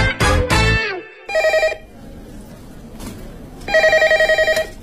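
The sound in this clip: Telephone ringing: two bursts of loud, rapidly pulsing electronic ring tones, each lasting about a second, with a brief loud tonal sound before the first ring.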